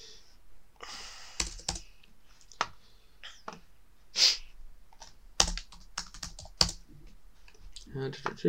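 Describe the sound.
Keystrokes on a computer keyboard: a quiet, irregular run of clicks and taps, with a few louder presses standing out.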